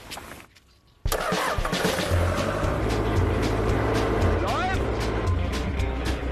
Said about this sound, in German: Martins Erntefahrzeug ist eine Mischung aus Kehrmaschine und Staubsauger. Sie schluckt alle Nüsse, die am Boden liegen.